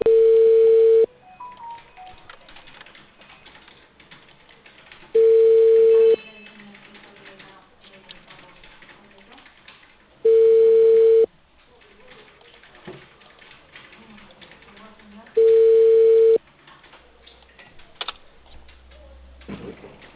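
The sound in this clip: Ringback tone of an outgoing call from a cable company in Peru. Four long, steady mid-pitched beeps sound at even intervals about five seconds apart, thin and band-limited like a phone line, with faint low noise between them.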